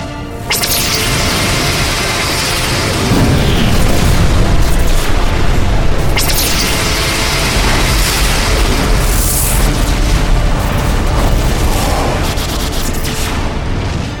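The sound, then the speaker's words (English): Starship weapon fire and explosions from a warning shot in a space battle drama, a loud, continuous roar of booming blasts with several sharp new impacts breaking through the dense, rumbling wash. “that was my warning shot.”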